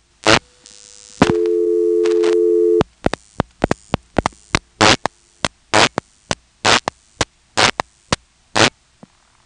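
Switchhook flashes on a telephone line in a step-by-step exchange, used to drop the director. A steady tone holds briefly, then many sharp, loud clicking bursts follow in an uneven run.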